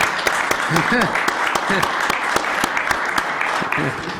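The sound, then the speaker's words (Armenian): Audience applause at an event marking the revolutionary government's first year in office, steady and moderately loud, with a voice speaking over the clapping throughout. “Ծափարենք, այո։”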